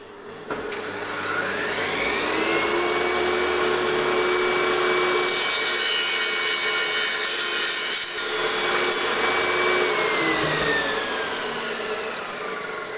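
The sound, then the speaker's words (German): A power saw starts up and cuts through a piece of wood for stage scenery. A loud, steady, high whine climbs in pitch as the motor spins up, holds through a long cut with a brief dip midway, then drops as the machine winds down. “Und dann legen wir das Stück Holz da drauf. Müssen natürlich vorher abmessen, wie groß und was wir absägen wollen. Und dann starten wir mal die Maschine. Achtung, jetzt wird es etwas laut.”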